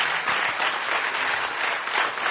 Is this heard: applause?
yes